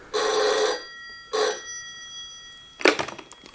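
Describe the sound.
Two bright, metallic rings of a telephone at a dacha, a long burst followed by a shorter one, then after a pause a brief rattling clunk that quickly dies away.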